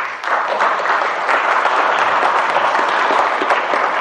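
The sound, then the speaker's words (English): A crowd at a ministry event claps steadily to welcome a guest speaker onto the stage. The sustained applause is dense and even and lasts about four seconds. “Would you guys give a hand for Jillian?”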